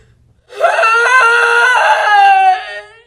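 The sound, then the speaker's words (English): A woman sobs and weeps for her mother during a stage play, heard as one loud, sustained, high-pitched wailing cry lasting a little over two seconds, with no other sounds around it. “begins to sob and weep for her mother”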